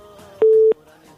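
A telephone busy tone sounds after a dropped call: one short, loud, steady mid-pitched beep, rising sharply above a faint, humming line background and then cutting off cleanly.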